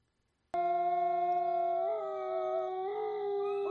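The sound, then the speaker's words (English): Wolves howling: a sudden, loud, high sustained howl that begins abruptly and holds steady, its pitch wavering slightly toward the end, with no other sound. “I hear the wolves howling. I hear the wolves howling.”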